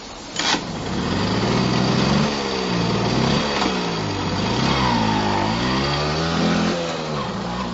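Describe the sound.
A loud 1.5-horsepower early motor carriage engine running at about 600 rpm, a continuous rough mechanical drone whose pitch wavers up and down throughout, with no voices.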